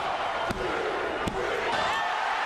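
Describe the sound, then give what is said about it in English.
Two sharp, heavy thuds from a body slam in a sold-out professional wrestling match, rising above a continuous roar of crowd noise. “Munn dropped Lewis from a great height with an almighty slam to pick up a 3 count and the first fall in their match.”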